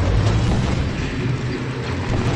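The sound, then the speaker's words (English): Bombers strike rocket turrets in a Star Wars video game with a dense, rumbling barrage of blasts. The explosive roar stays loud and steady for about two seconds, with no pauses between hits. “And since these rocket turrets are doing some damage, I'm going to bring in some bombers to see if I can take them out. Here we go.”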